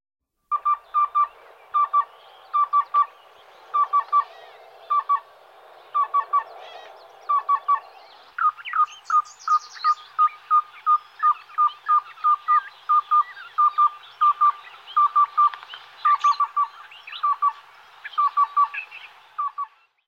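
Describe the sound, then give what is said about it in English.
Black-billed cuckoo calling: soft, hollow, mid-pitched cooing notes, first in quick clusters of a few, then a steadier, continuous run of many notes, with no voices. “Black-billed cuckoo.”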